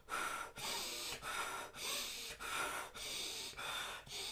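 Rapid breathing in a two-in, two-out pattern, demonstrated while lying down: a steady run of quick, forceful, airy breaths with short gaps between them and no talk over them.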